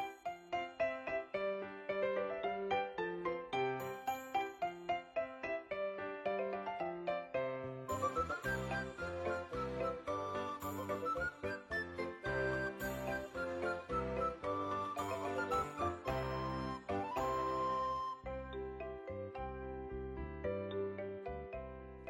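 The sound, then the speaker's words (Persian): Instrumental music fills the stretch, bright tinkling, chime-like notes over a fuller accompaniment, moving in a steady rhythm of quick, distinct notes that stays moderately loud and continuous for about twenty seconds. “تا من مهمان همراهی میکنم شما یک موزیک بشنوین”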